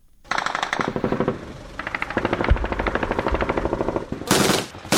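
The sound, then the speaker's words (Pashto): Heavy and light gunfire from fighting between Afghan security forces and ISIS militants in the Sayed Ahmad Khel area of Kot district: dense, rapid automatic bursts rattle almost without pause, with a sharper, louder volley near the end. “دا د کوټول سوالي د سید احمد خیلو په سیمه کې د افغان امنیتي ځواکونو او د داعش وسلوالو ترمن د مخامخ جګړې د سپوکو درنو ډزو غګونه دي”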